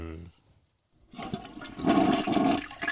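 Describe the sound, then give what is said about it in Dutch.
A toilet flush sound effect follows a brief voice and a moment of silence: rushing water bursts in, swells to a loud churning surge, then carries on steadily. “Of misschien is het wel een wegspoelgeluidje. Five, four. En daar, gaan de kennistoetsen de wc door.”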